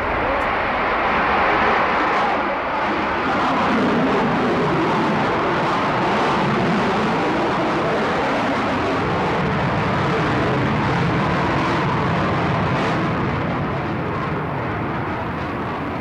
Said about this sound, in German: Abstand von etwa 100 Meter jagt die Kette von 9 Lightnings über die Startbahn. Und während der letzte gerade zum Start ansetzt, hat sich der erste schon von der Bahn abgehoben.